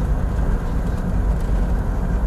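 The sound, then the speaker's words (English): A car being driven home on the road makes a steady, loud, low rumble of engine and road noise that continues without a break. “There'll probably be some background noise because I'm driving home after working a 16-hour shift today.”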